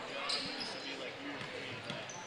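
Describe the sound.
A basketball is dribbled on the court during a women's game. A few faint, low thumps sit under soft crowd noise.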